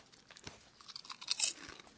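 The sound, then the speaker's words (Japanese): Crunchy kettle-fried potato chips are chewed. A few crisp, crackling bites are followed by brisker munching, and the loudest crunches come near the end. “じゃあもうこのポテチもね、 どうぞどうぞ食べましょうよ。 久々に食うな片揚げポテト。”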